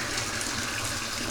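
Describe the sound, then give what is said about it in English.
Water gushes from a tap to fill a bathtub in a steady, even rush that continues without a break. “If that's the sound of a bathtub filling up”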